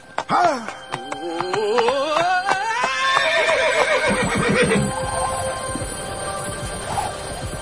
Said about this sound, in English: In no time at all, they are moving at an easy gallop